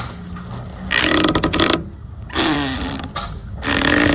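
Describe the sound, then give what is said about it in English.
Dock lines tighten on a rocking boat, making loud creaking and grinding strain in several long bursts separated by quieter gaps. “that was dock lines tightening on a rocking boat”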